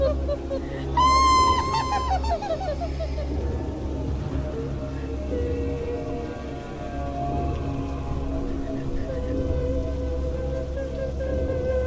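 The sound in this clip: Heavy rain pours down in a steady, dense hiss throughout, with a brief, high, wavering tone near the start.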